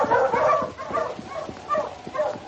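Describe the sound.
A husky sled dog on a trail barking and yipping while being driven on: a rapid series of short, high yips and barks in uneven bursts, fairly loud and alone.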